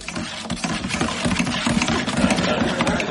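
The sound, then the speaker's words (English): A tombola drum holding envelopes being spun during a debate show, a continuous rolling rattle of many quick knocks and papery rustling as the contents tumble inside, steady and fairly even throughout. “So it's time once again to say, spin the tombola, please”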